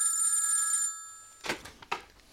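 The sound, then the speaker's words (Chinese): A telephone rings with a steady high electronic bell tone that cuts off after about a second, followed by a few brief clunks and clicks. “有电话。”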